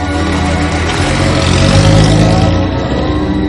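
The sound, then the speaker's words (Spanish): A car slows in front of a mansion's entrance and drives past: a steady, dense engine rumble that swells a little near the middle and eases toward the end. “Un coche aminora la marcha ante la entrada a la mansión y pasa de largo.”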